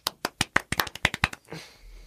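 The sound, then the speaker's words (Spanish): Applause after a call to clap for an actress: a rapid, fairly even run of sharp claps, then a brief softer rustle as it ends. “Un aplauso para ella, por favor.”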